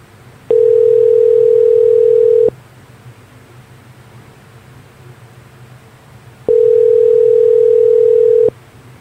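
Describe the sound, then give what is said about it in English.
Telephone ringback tone as a call to a helpline is placed: two steady, evenly pitched tones, each about two seconds long and separated by a roughly four-second pause, sound over a faint hiss. “you can dial 0 to speak to someone, and that's what we're going to do now”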